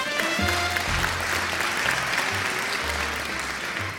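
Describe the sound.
Audience applause at the end of a puppet show, dense and steady from start to finish.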